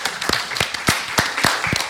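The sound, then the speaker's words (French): A festival audience applauding: dense clapping with evenly spaced, strong claps standing out over a steady wash of hands, fairly loud. “vraiment applaudir Sacha et Luciano parce que ils ont dû improviser.”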